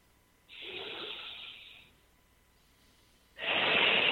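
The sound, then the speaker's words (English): A deep breath is taken as a demonstration during a talk on meditation: a long, airy inhale lasting over a second, a short quiet pause, then a louder, stronger rush of breath that runs to the end. “That would be a deep breath.”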